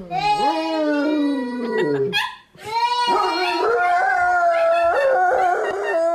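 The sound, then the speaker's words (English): Dogs howling along with a little girl's singing, long wavering high-pitched howls that slide up and down, pausing briefly before more sustained howling and sung notes. “Now we have some dogs who don't like this little girl singing.”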